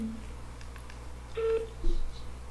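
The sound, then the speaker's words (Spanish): Telephone keypad tones as a number is dialed: a few short electronic beeps at separate pitches, with one held a little longer than the others, over a low steady hum. “Ya, ya, esto ya estoy marcando.”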